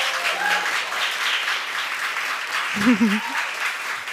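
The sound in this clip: Audience applause welcoming three guests to a live recording, a steady wash of clapping that holds through the whole stretch, with voices faintly beneath it.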